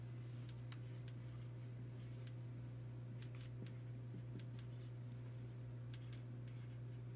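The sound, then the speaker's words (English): A name written by hand gives faint, quick scratching strokes in separate short bursts over a steady low electrical hum. “I'm just going to write Luis.”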